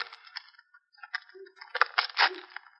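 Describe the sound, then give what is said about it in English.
An envelope torn open during a murder case, with papery crinkles and rips in a few short, faint bursts that grow busier toward the end. “Naughty. You're opening other people's mail.”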